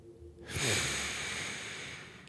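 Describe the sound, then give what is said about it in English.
A single long, slow breath, soft and airy, rising abruptly and then holding as a steady hushed rush, heard alone in a quiet morning setting. “Inhale. Exhale.”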